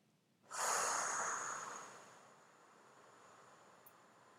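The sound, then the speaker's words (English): A single long exhalation of breath, a soft rush of air that starts strong and breathy, trails off over about a second and a half, then gives way to quiet. “So I'd like you to begin by taking a long exhalation.”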